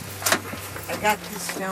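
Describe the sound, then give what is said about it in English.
People get out of a car with a few soft clunks and rustles from the doors and their movement, while voices talk in between. “We all get out of the car.”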